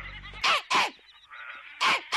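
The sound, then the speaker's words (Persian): A pet sheep bleats several times, short wavering cries with a nasal, goat-like quality, separated by quieter gaps with a faint low tone at the start. “حالت خوبه گوسفند من؟ بهت که بد نمیگذره.”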